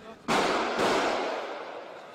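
Gunfire from assault rifles during an armed attack on an upscale shopping mall in Nairobi: two sharp, loud bursts a moment apart, each followed by a long, noisy wash that slowly fades.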